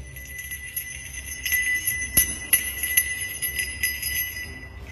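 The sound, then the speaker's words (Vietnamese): A handheld bell rings continuously with a bright, jingling metallic tinkle. Sustained high ringing tones are punctuated by several sharper strikes, and no voices are heard. “Thằng Đại đứng đằng sau chướng nhãn pháp, nhìn thấy từ bao giờ cha nuôi nó đã rút ra một cái chuông cầm ở trên tay. Cái chuông cứ thế mà rung lên leng ca leng keng.”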